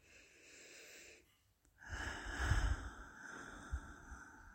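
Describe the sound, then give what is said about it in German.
Slow breathing through the mouth with a soft H sound, as in a guided relaxation exercise. A gentle breathy stretch stops for a short pause, then a longer and louder airy exhale follows. “Und durch den Mund ganz langsam ausatmen. Du kannst auch ein H-Laut dazu nehmen.”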